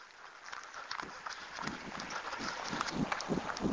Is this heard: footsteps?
yes